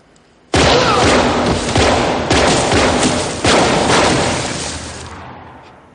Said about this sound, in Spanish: John, en la cubierta, sujeta en alto su revólver. Sam recupera su pistola y apunta contra Mark, que aunque tiene varios disparos en el cuerpo, todavía está consciente.